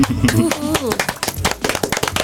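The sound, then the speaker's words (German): Sharp hand claps applauding midwives who have finished their training, fast and uneven bursts of clapping that follow a talking voice at the start. “Applaus für alle, die jetzt mit der Ausbildung fertig sind an der Stelle.”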